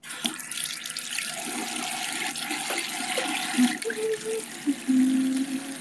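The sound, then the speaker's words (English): Water running from a tap while hands are washed: a steady, bright splashing hiss that continues for the whole clip, with a few brief louder splashes near the end. “Let me wash my hands really quick, because I don't want to peel an egg with lotion all over my hands.”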